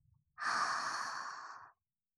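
A single deep breath in, taken slowly for relaxation during a massage, makes a smooth, breathy hiss that lasts about a second and a half and stands alone in silence.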